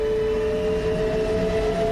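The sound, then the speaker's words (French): A train departing with a powerful metallic rumble, a steady loud low drone with a sustained whining tone held throughout. “Le convoi s'ébranle dans un puissant grondement métallique.”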